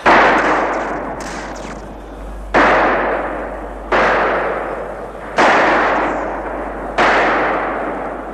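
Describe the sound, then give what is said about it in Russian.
Gunshots in a night battle near a forest and rocks: five loud, booming reports with long rumbling decays, spaced a second or two apart, with no voices. “Смотри, огоньки, выстрелы движутся в сторону, уйдут! Не уйдут! Слышишь?”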